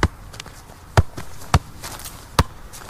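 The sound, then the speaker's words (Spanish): Football juggled with repeated touches: four distinct dull thumps of the ball at uneven intervals, fairly loud against a quiet background. “Hace toques de balón.”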